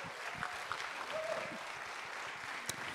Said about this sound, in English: Everybody, come on, put your hands together for Lily.